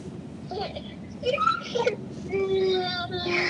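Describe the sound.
A baby fusses with a few short whimpers and fretful cries, then a longer, drawn-out whine near the end.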